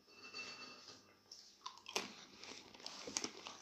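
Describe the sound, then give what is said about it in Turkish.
Quiet crunching from someone eating a salty cracker, a few sharp bites standing out over faint crinkly rustling, with no talk. “Dur şu krak yerden yiyeyim. Çok tatlı yedim az tuzlu da yiyeyim.”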